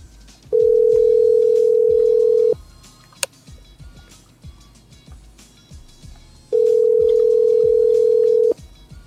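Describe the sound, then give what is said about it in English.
Telephone line tone: two long, steady, low-pitched tones, each about two seconds, separated by a pause of several seconds with one sharp click and faint background rumble. “I'll sit here for a few minutes while you dial”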